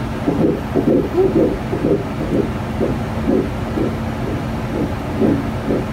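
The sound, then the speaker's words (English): A recorded fetal heartbeat pulses in a steady, fast rhythm of muffled low thumps over a constant whooshing hiss, moderately loud with no talk. “If you haven't heard a fetal heartbeat, here is a fetal heartbeat from...”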